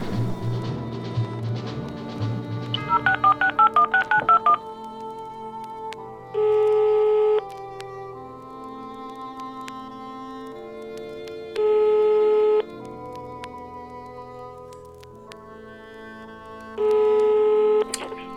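Telephone dialing: a rapid run of short beeps as a number is entered, then three long, steady ringing tones separated by quiet pauses, with softer background sounds throughout.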